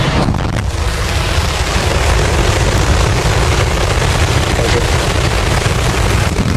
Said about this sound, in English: SpaceX has launched its massive Starship rocket into orbit this morning. 3, 2, 1.